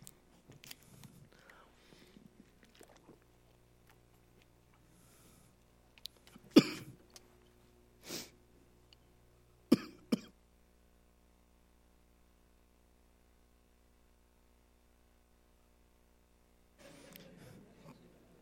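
Throat clearing and coughing from a tickle in the throat, a few sharp, short bursts separated by quiet gaps, with faint breathy mouth sounds earlier and a soft rustle near the end.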